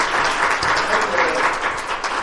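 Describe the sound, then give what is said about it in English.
Loud applause from a church audience clapping in praise during a worship service, a dense, steady wash of hand claps that fills the whole short stretch, with faint voices mixed in. “Give the Lord a great hand clap of praise.”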